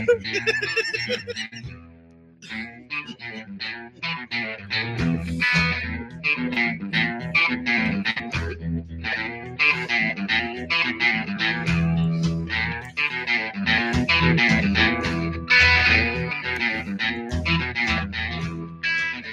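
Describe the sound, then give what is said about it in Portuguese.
Goose honking run through heavy distortion and effects: many harsh, rapid honks follow one another in a steady, buzzing rhythm for a long stretch, loud and processed, with brief gaps between bursts. “o ganso apareceu.”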